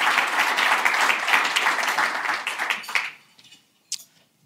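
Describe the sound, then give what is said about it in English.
An audience applauds to welcome a panel onto a conference stage, with dense, steady clapping that stops abruptly about three seconds in, followed by a few scattered, faint claps. “So if you'll all just put your hands together and welcome our panelists.”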